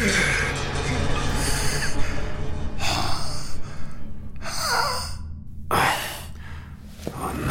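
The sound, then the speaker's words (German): A dying man's last labored breaths: a few drawn-out, breathy sighs and gasps rising over a steady low rumble. “Eve der Küster hatte seinen letzten Atemzug getan”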